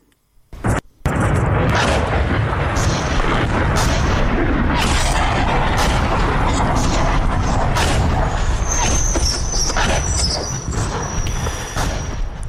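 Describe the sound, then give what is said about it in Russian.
An intense artillery barrage of salvos from MSTA-S and Koalitsiya howitzers and Grad rocket launchers. A couple of early blasts lead into a dense, continuous rumble of overlapping booms and cracks that stays loud to the end. “«Коалиция» и «ГРАД»? Украинское издание «Тексты» создало анимированную графику, которая имитирует интенсивный артобстрел. Его сопровождают реальные звуки залпов соответствующих калибров.”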